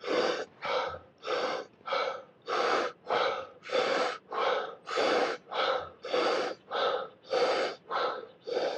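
Deep breaths drawn in and let out in an even, repeating rhythm, many loud, evenly spaced breaths with no talk.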